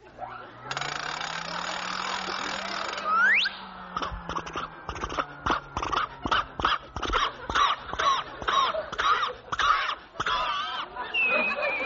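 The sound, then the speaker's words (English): A hairdressing machine switches on with a rising mechanical whine, then settles into a rapid, rhythmic ratcheting clatter that keeps going steadily. “Now, just put your head under the machine, and I'll turn on the switch.”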